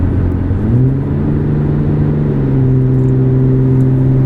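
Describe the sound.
A Dodge Ram 3500 pickup truck engine revs with a deep, loud rumble. Its pitch climbs early on, then settles into a steady low drone, with no voices.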